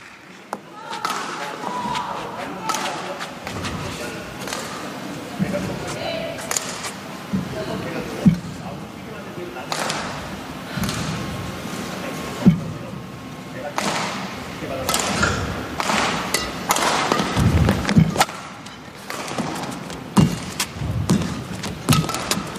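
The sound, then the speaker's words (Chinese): Badminton rally with jump smashes hit from the back court, many sharp thuds and pops of racket on shuttle spread through the exchange, under a continuous, excited commentator's voice. “推对方底线跳杀，漂亮，好球啊！”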